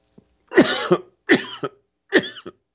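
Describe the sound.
Coughing after cigar smoke went down the wrong way: three harsh bursts spaced about a second apart, each a rough hack followed by a shorter catch.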